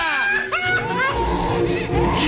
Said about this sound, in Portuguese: E a criança chorando, aquele homem de 32, devolve a chupeta!